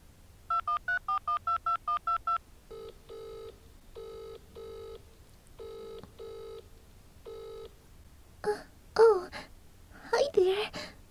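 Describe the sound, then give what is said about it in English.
Telephone number being dialed: a quick run of short, evenly spaced keypad beeps, then several paired ringback tones, after which a person starts speaking. “He gave me his number. I'm going to call him.”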